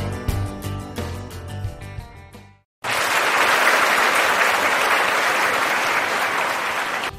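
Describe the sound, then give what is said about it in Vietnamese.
Loud, dense applause welcoming honoured guests at a Buddhist gathering. A crowd claps steadily and evenly after a brief musical passage that cuts to a short silence. “xin quý hãy cho một tràng pháo tay thật lớn để chào đón Phật tử Quảng Phong, giáo sư sử học Lê Văn Lan và thượng tọa trụ trì chùa Hoàng Pháp.”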